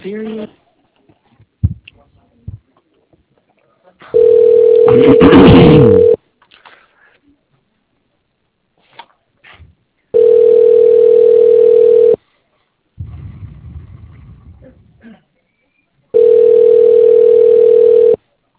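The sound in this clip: Telephone tones play while a call is transferred: three long, steady mid-pitched tones of about two seconds each, evenly spaced, with brief faint clicks and scraps of other sound between them.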